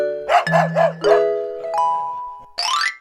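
A dog barking: four quick, high, tonal yips in a row, with sustained electronic chime tones beneath and after them.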